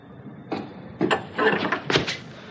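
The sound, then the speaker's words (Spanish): Knocking on the door of a flat at the top of shabby stairs: a few dull, irregularly spaced knocks, moderately loud, over a low background hum. “llama a la puerta.”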